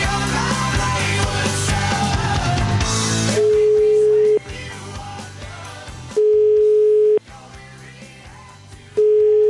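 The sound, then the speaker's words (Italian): A telephone tone sounds while a call is being placed. It follows a few seconds of music and comes as a steady single-pitch tone in long pulses with silent gaps between them. “Facciamo una prova, chiamiamolo un po'.”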